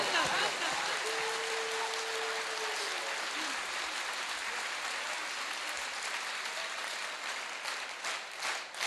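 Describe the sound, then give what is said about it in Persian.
An audience clapping hands, a dense, even patter of many claps that carries on softly throughout. “یاد امشب دست نزن یا دستی که میزنی، چون برای سلطان همه عالم داری دست میزنی، کم نزن.”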